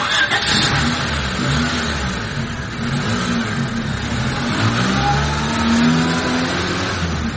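A car engine in an informal passenger transport vehicle starts up and pulls away, a loud, continuous mid-pitched rumble with revving that carries steadily through the whole clip.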